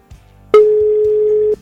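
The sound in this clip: A single telephone ringback tone on an outgoing call: a steady, mid-pitched electronic tone holding for about one second and then cutting off, preceded by a faint click.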